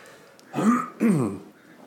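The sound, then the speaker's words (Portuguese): Two rough throat-clearing bursts in quick succession, fairly loud and heard alone with no talk, each a short gravelly rasp from the throat. “vai pra todos ouvirem mesmo essa limpadinha na garganta”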